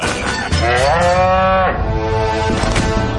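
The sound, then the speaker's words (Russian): A cartoon cow moos menacingly: one long, loud, resonant low, rising into a sustained bellowing tone, then trailing off into a lower, rougher drawn-out call. No voices are heard. “Рыжая корова подходит к зайцам, грозно опустив голову.”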